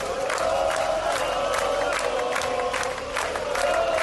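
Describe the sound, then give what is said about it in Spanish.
Crowd roaring and shouting at a night street protest in Barcelona, with torches and burning bins. A loud, continuous mass of voices with scattered yells and cheers runs throughout. “Este es el sonido de una especie de fiesta, aquelarre en Barcelona, a primera hora de la noche, con antorchas y contenedores ardiendo, con algún grito”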